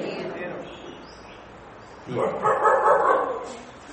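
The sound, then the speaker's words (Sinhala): A dog outside barks in a short burst of yaps during the second half, under ongoing speech. “බල්ලා පුරනවා කියලා දැනගත්තා.”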